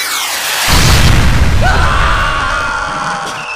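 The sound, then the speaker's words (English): Missiles fired and exploding: after a brief quiet, a sudden loud boom erupts into a sustained roaring rumble and hiss, with a thin whining tone running through it as the blast slowly fades. “We have no option. Fire missiles. Incoming!”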